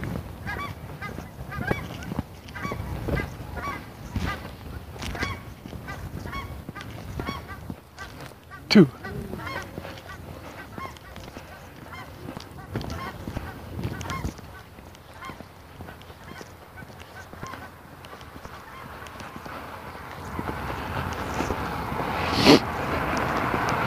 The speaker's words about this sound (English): Ooh, here geese.